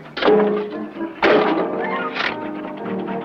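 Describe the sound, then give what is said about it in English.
Chunks of wood are thrown into a boat's furnace, making a few dull, heavy thunks spaced about a second apart, each followed by a rattling tail, with no talking. “Allnut heads to the bow and throws chunks of wood into the furnace”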